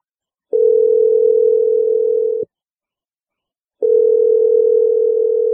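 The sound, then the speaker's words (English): Ringback tone of an outgoing telephone call: a steady, mid-pitched electronic tone sounds for about two seconds, stops, then returns after a short pause and runs to the end. “Okay, let's just call Carrie and see what she has to say. Here we go.”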